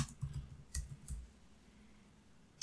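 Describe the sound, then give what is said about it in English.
Typing on a computer keyboard: a few sparse, faint clicks near the start, then near silence. “I'll just type in Going the Distance. I don't want to type in National Lampoon.”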